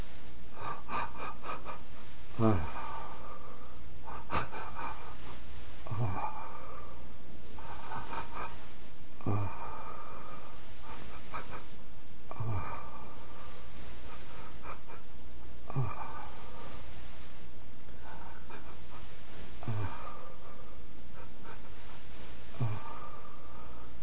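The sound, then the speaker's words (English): A person demonstrates cry breathing: each inhale is broken into a string of short catching breaths, followed by a normal exhale. The cycles repeat at a steady pace, about every three seconds, with no talking. “Next, cry breathing. It's mentioned in the book that in cry breathing, the inhale is broken up into a series of short inhales, while the exhale is a normal exhale.”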